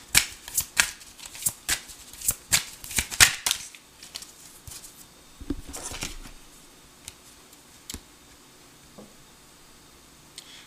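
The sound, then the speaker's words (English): Tarot cards being shuffled and drawn during a reading: many crisp, rapid riffles and snaps in the first few seconds, then quieter slides and occasional taps of single cards. “Let me have some more cards. May I have some more cards, please?”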